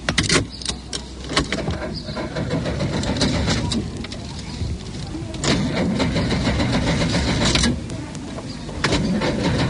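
A car engine cranks without starting: a long, steady churning grind carrying on for several seconds, broken by a few sharp clicks, the motor never catching into an idle.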